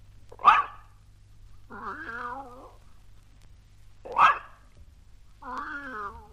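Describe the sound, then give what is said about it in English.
A dog gives a single sharp bark, then a cat answers with a drawn-out, wavering meow. The bark-then-meow pair happens twice, clearly and alone, with quiet gaps between. “Listen to them. Mr. Pooh will bark once, and then Timothy will meow.”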